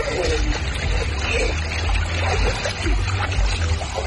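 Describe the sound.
Children splashing in their backyard pool in Gemrichheim, a steady, fairly loud wash of water noise with voices mixed in throughout.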